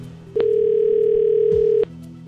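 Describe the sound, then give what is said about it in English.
A telephone tone as a number is dialed: one steady, mid-pitched electronic tone that starts and stops abruptly and holds for about a second and a half. “I'm going to call the number.”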